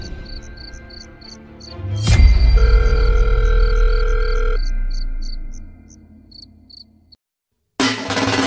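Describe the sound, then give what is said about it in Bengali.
A phone ringing tone sounds after a number is dialed: a steady electronic tone holds for about two seconds after a low thump, while rapid, high insect-like chirps pulse throughout. “সেই নাম্বারে dial করতেই আমি ফোনের ring হওয়ার শব্দ শুনতে পেলাম”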